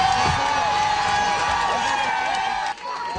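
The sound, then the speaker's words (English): Fans cheer and whoop as the Montreal Victoire women's hockey team steps off a bus with the Walter Cup outside the Verdun Auditorium. The loud, sustained crowd roar is full of high shouts and dips suddenly near the end. “That is the sound of fans welcoming the Montreal Victoire as they got off the bus, hoisting the Walter Cup.”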